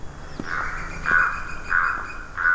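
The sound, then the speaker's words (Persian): A western pheasant gives four harsh, raspy calls at an even pace, each a short, flat, nasal burst over a steady background hiss. “این یه قرقاول غربیه، سلطان پرنده ها.”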